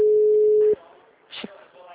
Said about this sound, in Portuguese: Vou ligar rapidinho pra...